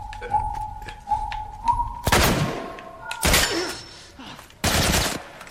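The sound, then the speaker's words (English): Assault rifle fire in a video game comes in three loud bursts of rapid shots in the second half. Quieter thumps and electronic game tones come before them. “Assault rifle. New weapon. Ah! Assault rifle. Here's a new toy. Assault rifle. Check this out.”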